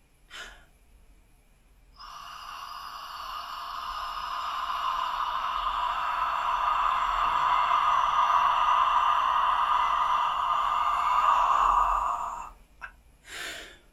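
A long, steady, audible breath during a breathing-exercise demonstration. It swells gradually and holds for about ten seconds before stopping, with short breathy noises before and after it.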